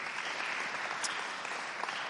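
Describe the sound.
Church audience applauding to welcome a speaker, a steady, even wash of clapping that holds at one level throughout.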